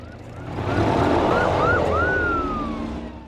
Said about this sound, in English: As the police car begins to catch the vampire up, it accelerates away hard.